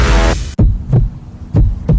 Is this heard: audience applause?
no